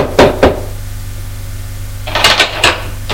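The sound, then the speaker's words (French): Knocking on a door: two sharp raps early on, then after a quiet stretch a quick cluster of a few more knocks and thuds, all over a low steady hum. “Elle frappe à une porte”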